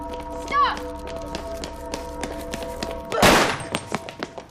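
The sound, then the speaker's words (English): A sharp, loud burst of gunfire erupts near the end of a tense confrontation in which a police officer calls in shots fired. Voices are heard through the scene, and a few smaller knocks follow the shot. “1071, shots fired!”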